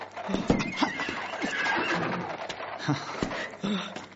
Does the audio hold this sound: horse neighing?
yes